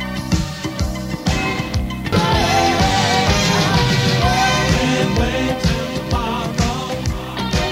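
Full-band music from an extended 12-inch version, dense and loud throughout, driven by a strong steady beat with layered instruments and no pauses.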